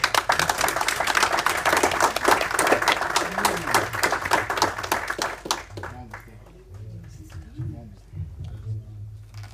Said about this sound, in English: Clap for Mama Jonas.